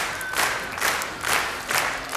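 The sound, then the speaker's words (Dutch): A crowd claps along in unison at a music festival, with four loud, evenly spaced bursts of clapping pulsing over a constant crowd murmur. “Wacht, klap maar mee.”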